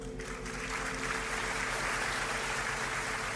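An audience applauds to welcome a violinist onto the stage, a dense, even wash of clapping that holds steady and strong throughout without breaks.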